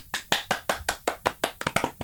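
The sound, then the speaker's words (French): One person clapping hands alone: many crisp, evenly spaced claps in a steady rhythm that quicken and bunch slightly toward the end. “Là, je suis tout seul à taper, ça n'a aucun impact, mais c'est bon. Ben, j'ai tapé moi aussi, je, te dis, je t'accompagne.”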